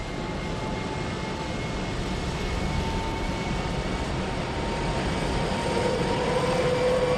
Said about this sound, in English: they can hear the plane motors as they are each one fired in order. The first two are already running. Now three.